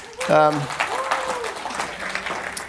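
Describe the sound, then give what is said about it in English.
A church audience applauds to welcome people watching online. A short burst of voice opens it, then steady, moderate clapping runs to the end. “We want to welcome those that are watching online today. Let's give them a hand.”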